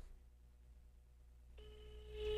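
Ringback tone of an outgoing telephone call: a quiet stretch, then a faint, steady electronic ringing tone that starts partway through and continues to the end.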